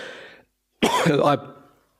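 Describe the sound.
A person clears an itchy throat in one short, harsh, loud rasp that follows the tail end of speech and then fades quickly into quiet.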